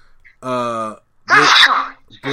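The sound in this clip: A loud sneeze, a noisy explosive burst of about half a second, preceded by a drawn-out voiced exclamation and followed by the start of speech.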